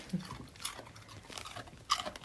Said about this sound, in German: Das kleine Raspeln im Hintergrund ist ihre Hündin Anouk, über die es heute auch geht, die sich gerade eine Möhre schmecken lässt.